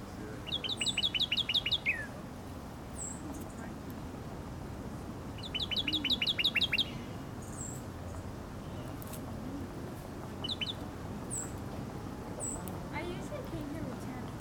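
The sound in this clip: A male bird gives three short bursts of rapid, high-pitched chirping trills, separated by pauses, plus a few isolated faint chirps over a constant low background hiss.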